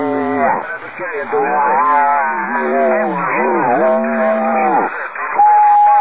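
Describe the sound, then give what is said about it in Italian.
A man imitates a cow with several drawn-out, wavering moos over a narrow-sounding radio link while operators tune in. The moos are loud, and each one bends up and down in pitch. “c'è stato uno che ha fatto la mucca”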